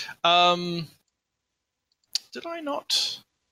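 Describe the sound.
A few crisp mouse clicks while someone works a virtual tabletop map, short sharp ticks that fall between stretches of wordless vocal sound.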